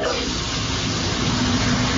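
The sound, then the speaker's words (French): Shower water runs in a steady, loud, unbroken hiss, a continuous spray with no talk over it. “là, je suis sous la douche, donc je peux pas répondre”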